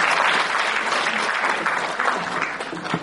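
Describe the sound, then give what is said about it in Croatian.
Audience applause greets a local cultural centre at a community event, a dense and steady patter of many hands that holds loud for about three seconds and eases slightly toward the end. “Pozdravimo ga aplauzom.”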